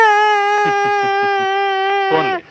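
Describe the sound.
A child crying: a sustained, high-pitched wail broken by rhythmic sobbing catches, loud throughout and cutting off abruptly at the end.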